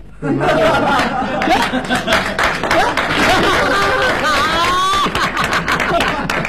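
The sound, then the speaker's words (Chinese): An audience claps during a comedic crosstalk stage show. Crisp clapping mixes with talking voices and chuckling laughter throughout. “哎呀，连我都鼓掌。 哎， 有本事， 那是， 各位还真捧你，还真鼓掌。”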